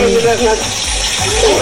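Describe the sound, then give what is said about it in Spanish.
Running water as a child washes small dishes, a loud, steady gushing splash with someone talking over it. “Ve, ahí está lavando los platitos.”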